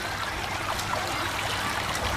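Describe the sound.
Water poured over a minor wound on a person's back to wash it, a soft, steady trickle that runs continuously, with no talking.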